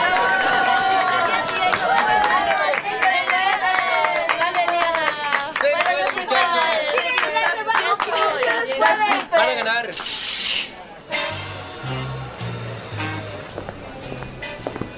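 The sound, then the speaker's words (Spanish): Applause and cheering from a school audience welcoming second-year secondary students to a stage parody: dense clapping mixed with loud voices for about ten seconds, then giving way to speech. “¡Fuerte los aplausos!”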